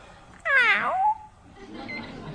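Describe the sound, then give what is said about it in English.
A male house cat gives a single loud, clear meow that slides down in pitch as it ends, followed by faint low background noise. “I finally got that cat.”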